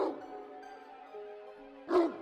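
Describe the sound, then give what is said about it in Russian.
A huge dog barks in the distance, a faint, drawn-out whining tone followed by a single short bark near the end. “Нам по-прежнему казалось, будто издалека доносится лай огромного пса.”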